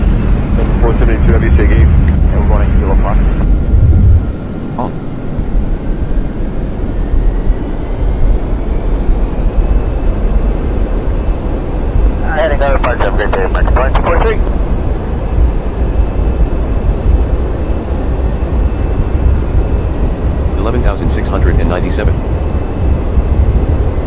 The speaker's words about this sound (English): SK737, you are clear to take off from runway B2.